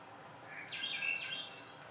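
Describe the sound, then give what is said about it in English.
A Swainson's thrush sings one short, bright, high phrase midway over the soft, steady hiss of light rain. “So that's just really, really light rain. It'll get a little denser when it gets to here. That's a Swainson's thrush coming up.”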